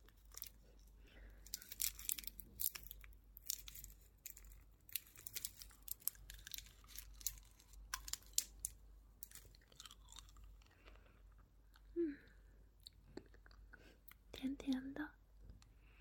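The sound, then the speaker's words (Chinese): Crinkling of a candy wrapper being unwrapped, then soft chewing and mouth sounds from eating the piece of candy, with quiet whispering throughout. “你要吃糖吗？我找找啊，在这。你要吃吗？不吃，我吃掉了。”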